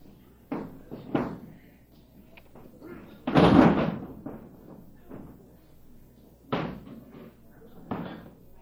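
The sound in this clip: During a wrestling match, a wrestler with judo training is slammed down onto the ring mat with one heavy, broad thud, surrounded by several lighter thumps and bumps.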